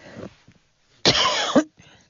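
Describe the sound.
A single loud cough from a tickle in the throat: one harsh, rough burst lasting about half a second that ends in a sharper catch, with faint quieter sounds before and after it.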